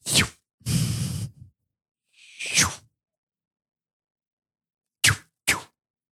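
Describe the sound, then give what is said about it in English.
A whooshing sound effect stands for a swiveling head: five separate swishes in an irregular rhythm with silence between them, the first few longer and the last two short and sharp. “And that's the sound of a swiveling head.”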